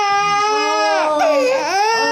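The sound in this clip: An infant cries loudly in a sustained, piercing wail that carries on without pause; the pitch wavers and dips midway before climbing back up.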